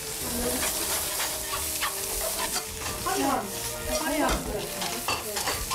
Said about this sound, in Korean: 그래서 이제 두부를 이렇게 해갖고 줬어요. 네. 이거 볶고 있어봐.